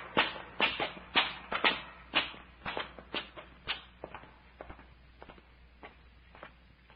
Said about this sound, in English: This climb is making me dizzy. I must be getting old. Oh, it ain't age, Doctor. We've climbed up more than a mile of these steps.